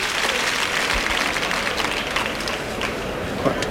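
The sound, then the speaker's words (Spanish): Bullfight crowd in a bullring applauds to encourage bullfighter Andrés Romero, a steady, dense wash of clapping that continues evenly throughout. “El público lo entiende así, anima a Andrés Romero.”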